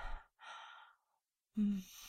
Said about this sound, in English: I know I'm breathing heavy. I'm nervous and excited, aren't you?